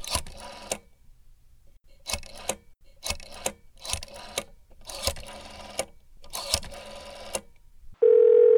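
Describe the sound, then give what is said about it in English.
A rotary telephone dial clicks off a number in several separate bursts of rapid pulses, with quiet pauses between each digit; a steady electronic line tone starts at the very end. “The number is dialing.”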